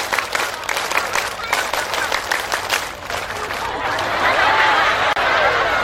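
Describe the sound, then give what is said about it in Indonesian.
A group claps in a patterned scout clap, rhythmic rounds of sharp, fairly loud hand claps, then the beat gives way to a broad, sustained wash of clapping and crowd noise. “Semuanya coba, tepuk satu. Nggak kompak kayak gini. Tepuk satu. Tepuk dua. Tepuk tiga. Tepuk pramuka.”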